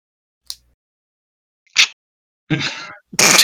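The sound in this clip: A voice imitates someone breathing loudly into a microphone. Four breathy, noisy bursts are separated by silence, and they grow longer and louder, with the last two forming heavy, drawn-out exhalations.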